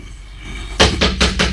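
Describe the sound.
Four loud, evenly spaced bangs hit a door in an old house. The heavy thuds come in quick succession after a quiet opening stretch.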